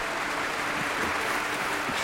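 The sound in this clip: Audience applause after an orchestral New Year's concert: dense, even clapping forms a steady wash of noise at moderate level for the whole clip, with no voices standing out.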